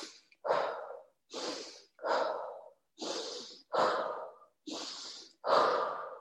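Forceful, intense breaths pushed out through the mouth during a mindful breathing exercise, repeated as a steady series of short, sharp airy bursts, each about half a second long with brief gaps, and no talking.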